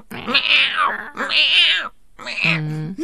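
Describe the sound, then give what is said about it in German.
A human voice imitates an old cat meowing, giving three drawn-out, wavering meows. The first two are high and whiny; the last is lower and steadier. “Und die hat ja auch so miaut wie eine alte Katze.”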